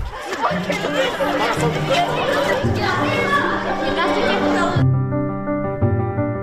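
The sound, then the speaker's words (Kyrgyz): Overlapping chatter of many children fills a crowded school in Kyrgyzstan: a loud, steady babble of young voices that continues throughout and turns duller and more muffled near the end. “Ал эми мынтип балдарга толгон мектептер Бишкек, Ош шаарлары жана Чүйдө иштеп жатат.”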